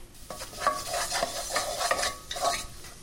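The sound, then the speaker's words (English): A flour and starch paste cooking in a pan on the hob as it comes together into a ball, with faint sizzling under a series of repeated scraping stirring strokes. “It's going to come together as a ball now, and I want that to cook just over the hob like this.”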